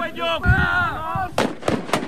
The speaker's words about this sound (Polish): Zostały zastosowane działania specjalne, między innymi granaty hukowo-błyskowe.